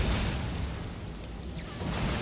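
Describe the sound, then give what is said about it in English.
A fire spell blasts at Thalmor enemies in a fantasy video game with a continuous roaring, hissing rush of flame noise lasting about two seconds and swelling slightly at the end, with no talk. “Thalmor at the bottom of the steps. I'm gonna blast them with fire.”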